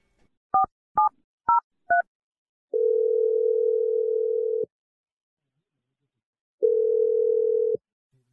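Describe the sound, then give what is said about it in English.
Touch-tone dialing of a phone number: four short two-pitch beeps in quick succession, then two long steady ringing tones separated by a silent gap, with no talk. “Only way is to call her and ask, so let's just do this. Here we go. I'm going to dial her number right now.”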